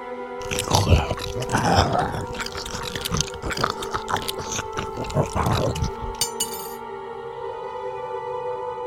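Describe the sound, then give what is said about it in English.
Wet chewing of a salted steak: a run of squelchy, crunching bites that stops after about six seconds, leaving a faint hum. “I need something to eat. What delights do you have for me? It's a steak, sir. Salted. Just how you like it.”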